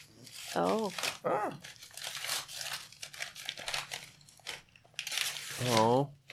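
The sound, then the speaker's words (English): Crinkling and tearing of a gift package's wrapping being opened, papery rustles and rips scattered among people talking and exclaiming. “You can open it.”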